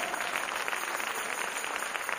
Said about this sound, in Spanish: ¿Cuántos alaban a Dios? Démosle un aplauso al Señor.